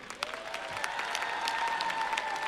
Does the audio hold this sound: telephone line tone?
no